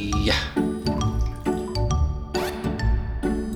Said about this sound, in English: No sense talking back when nature comes a-calling. Taking a wee-wee, making some pee-pee.